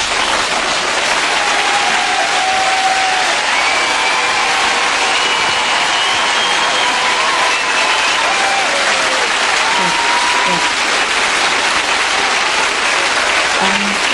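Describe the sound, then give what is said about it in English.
Loud, continuous audience applause welcoming a guest musician on stage: a thick, unbroken wash of clapping mixed with cheering and crowd voices, holding steady throughout. “Well, that time is right now, and he's here. Please, please welcome Maurice Gibb.”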